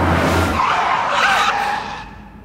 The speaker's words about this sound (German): Das autonome KI-gesteuerte Fahrzeug kommt direkt vor ihr zum Stehen.